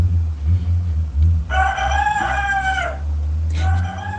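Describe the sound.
A rooster crows in one long, harmonic-rich call over a steady low rumble, followed by a short, fainter second call.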